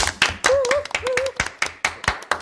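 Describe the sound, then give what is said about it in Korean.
Clapping for club members at the close of a discussion recording, a small group applauding in uneven, scattered claps. “저 우리 수고해준 그 모든 동아리원들 위해 박수 한번.”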